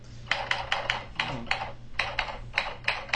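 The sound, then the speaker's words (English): Fingers type on a computer keyboard in quick, irregular bursts of light clicks and clacks, with short pauses between clusters of keystrokes. “You seem like you're typing fine, I guess.”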